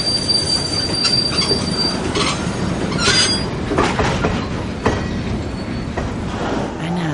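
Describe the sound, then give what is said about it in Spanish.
Train crossing a bridge at night, a steady loud rumble of wheels on rails with rhythmic clacking and intermittent high-pitched wheel squeals. “De noche el tren cruza un puente.”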